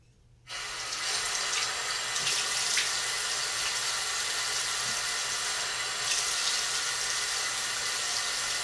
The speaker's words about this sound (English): Yeah, I'm gonna have to wash this off.